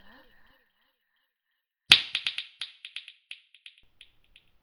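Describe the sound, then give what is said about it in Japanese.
A single sharp finger snap rings out, followed by a fast string of echoing repeats that grow quieter and further apart as they fade away over a few seconds. “指を鳴らす音が聞こえたら、あなたの催眠は解けるわ。”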